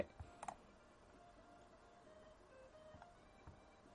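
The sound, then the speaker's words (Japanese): A mouse double-click opens a downloaded exe file, heard as a couple of small, faint clicks near the start, followed by a few softer ticks in a quiet background. “はい、ダウンロード終了です。はい、よくわかんないエグゼファイルだけど、ダブルクリックしちゃいます。”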